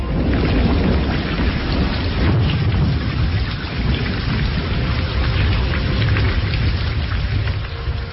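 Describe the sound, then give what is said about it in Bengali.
Heavy rain pours in a thunderstorm along a dark evening road, a dense, loud, unbroken hiss of drops with a low rumble of thunder running beneath it throughout. “শুধু যে বৃষ্টি তা নয়, সেই সঙ্গে কড়কড় করে বাজ পড়ার শব্দ,”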